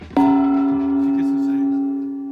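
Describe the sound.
A gong struck once: a sharp metallic hit that blooms into loud, sustained ringing tones, which hold steady and fade slowly over about two seconds.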